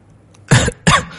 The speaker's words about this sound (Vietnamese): Lúc này những tiếng ho liên tục vang lên